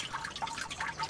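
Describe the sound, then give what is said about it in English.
Water trickles from a large fountain running as a weak, feeble flow: a faint, steady dribble and patter of falling water with no voices. “And here is the sound of the mega fountain.”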